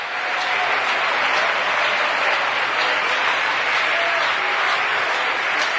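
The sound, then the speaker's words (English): Applause from a church audience giving God a hand of praise: a steady, dense roar of clapping that holds at an even loudness for about six seconds without a break. “Somebody give God a hand praise right now if you believe that.”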